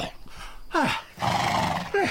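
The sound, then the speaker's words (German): A royal horse whinnies as a king mounts it for a hunt, letting out two loud neighs that each slide downward in pitch, with a rough, breathy stretch between them. “Der König besteigt das königliche Pferd mit Hilfe des Grafen de Rouen, des Chevalier de Sévigné und Madame de Maintenon.”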